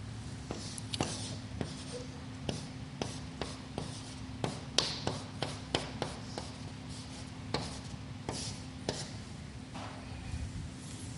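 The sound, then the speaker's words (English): Handwriting a pattern: many light, sharp taps and scratches of a pen in an irregular rhythm, fairly faint, over a low steady hum. “Excuse me a second while I write this. There's more to write,”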